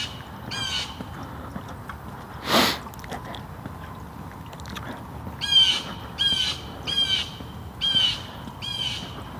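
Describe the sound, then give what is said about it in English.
A blue jay gives a few harsh, squawking calls, one early and then a quick run of similar calls in the second half, each rasping and sharp against a quiet background. “There's a blue jay calling.”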